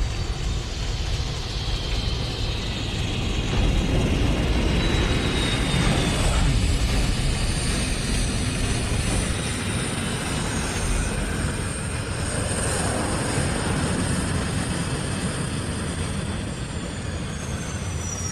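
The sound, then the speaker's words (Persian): Roaring airplane noise during a landing made at too high a speed, a dense steady rumble with thin whining engine tones drifting high above it, sustained and loud throughout with no voices. “عجب فرودی بود قربان، فکر نمی کردم زنده بمونیم.”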